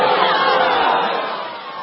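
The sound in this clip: A rowdy live studio audience cheers and shouts, a mass of mixed voices whooping and hollering together. The noise is loud at first, then slowly fades toward the end.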